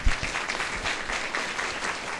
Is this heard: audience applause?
yes